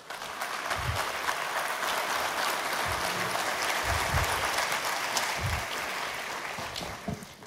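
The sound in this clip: An audience applauds to welcome a guest onto the stage, with dense, steady clapping that holds evenly for several seconds without pause and with no talk over it.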